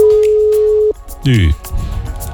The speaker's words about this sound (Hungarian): Amúgy furcsán cseng időnként a telefon, azt észrevettétek?